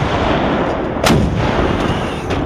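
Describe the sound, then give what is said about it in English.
Artillery fire erupts during an attack on Hessian troops: one heavy blast near the middle over a steady rumbling din, then a fainter report close to the end. “3 minutes later, American artillery erupted from the other prong of the attack.”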